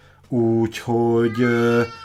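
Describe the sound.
A hungry cat meows desperately, giving three loud, drawn-out cries in close succession, each bending in pitch.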